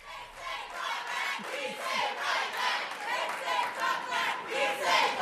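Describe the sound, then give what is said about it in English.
Audience members chant and protest at a public event with Mayor Booker. A loud, dense mass of voices pulses in a steady, repeated chanting rhythm throughout. “And this exchange begins with some chanting and protests that were taking place in the audience, which will give you a little sense of the feeling there for much of the event.”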